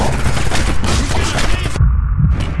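Gunfire in a loud, dense volley of rapid shots that blur into a continuous roar, then cut off abruptly, leaving a few duller thuds.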